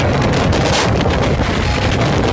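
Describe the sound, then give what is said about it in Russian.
A strong gale carrying a snow squall, wind so fierce that standing is impossible, roars and buffets loudly and without a break for the whole clip. “Вот условия, видите, какие погодные. Вот как это звучит. Сейчас опять снежный заряд пойдет. То есть скорость ветра такая, что стоять невозможно.”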